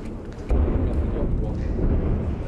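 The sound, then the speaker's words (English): Airstrike bombing in Aleppo: a deep, heavy rumble begins abruptly and keeps rolling as a loud, sustained low roar. “We will hear the bombing. This is the bombing, the sound. This is the sound of bombing.”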